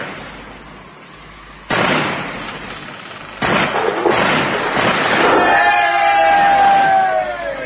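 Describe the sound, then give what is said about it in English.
Ship's guns fire in a radio drama during a naval attack. Two loud, sharp booming bursts come in sequence, then a sustained roar of crowd-like noise with high whistling tones running beneath. “We shall now come down on her defenseless side. Ready to fire! Yes, sir. Stand by! Fire!”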